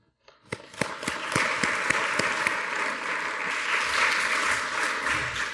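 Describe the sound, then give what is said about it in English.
Audience applause welcoming a speaker: a few first claps quickly swell into dense, steady clapping from the crowd that holds at an even level for several seconds. “Please put your hands together and welcome Tom.”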